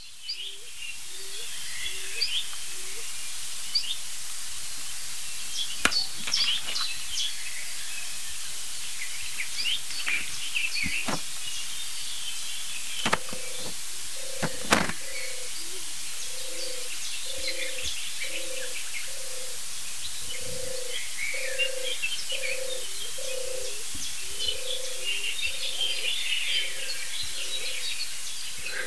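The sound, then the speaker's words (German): A stock dove calls in the background with a muffled, low, soft cooing repeated in a steady rhythmic series, faint beneath scattered chirps, clicks and other bird calls. “Und im Hintergrund, ganz dumpf, hören wir die nächste Spezialtaube.”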